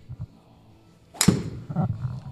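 A golf ball struck with a wood club on a third shot: one sharp, crisp crack followed by a brief rushing swish, with quiet low sounds before it.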